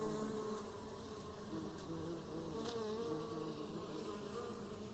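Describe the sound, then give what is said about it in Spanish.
Bees buzz in a continuous, even drone that holds a steady pitch and level for the whole stretch, with no voices. “Este agradable sonido de vida, ese zumbido, es el zumbido que nos trae vida. Ese es el zumbido de las abejas,”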